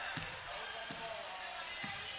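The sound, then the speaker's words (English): A basketball is dribbled near half-court during the third quarter of a girls' game, with three slow, evenly spaced thuds of the ball on the court over steady background noise. “still dribbling very near the half-court stripe”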